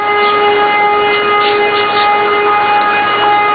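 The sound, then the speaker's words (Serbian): A civil defense siren over a small town sounds a loud, steady held tone with strong overtones, sustained without a break and with no clear rise or fall in pitch. “Kada se sirena oglasila iznad naizgled mirnog gradića, poznatog kratkog imena Severna Kosovska Mitrovica”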